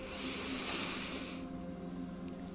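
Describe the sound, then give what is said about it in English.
Slow inhalation during a guided Christian meditation: a soft, steady, breathy hiss lasting over a second before thinning out, with faint sustained tones beneath. “So let's breathe in the Holy Spirit for four.”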